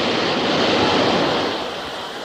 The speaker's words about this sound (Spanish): ¿Nota la brisa del metro? ¡Ay! ¡Qué sensación!